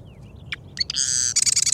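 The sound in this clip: A wren sings while weaving its nest: a few sharp chirps give way to high, ringing trilled notes that end in a rapid buzzy flutter, with no talk.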